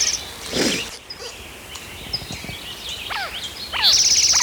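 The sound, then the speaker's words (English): Birds calling over a steady hiss of insect-like background noise: faint chirps throughout, then a few clearer downward-sweeping calls toward the end. “A lot of background noise out of birds.”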